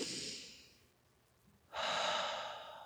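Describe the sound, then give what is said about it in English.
A deep breath taken slowly during a guided calming exercise: a long, airy inhale, a brief quiet pause, then a louder, fuller exhale that gradually fades. No voices are heard. “Just take a deep breath with me.”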